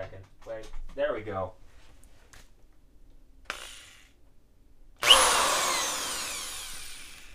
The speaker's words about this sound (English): That drill, which is symbolic of tools for me.